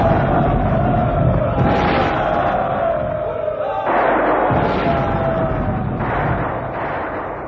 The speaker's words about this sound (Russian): И на восставших обрушился жесточайший шквал артиллерийского огня.